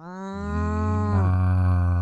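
A cow gives one long, deep moo that swells in loudness and holds steady, rich and resonant, with no other sounds around it.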